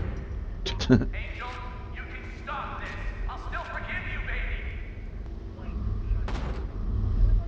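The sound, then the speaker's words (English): Video game gunshots ring out under lively talk between players, with a couple of sharp bursts early on and another near the end as voices carry on over them. “I'm shooting you in the head.”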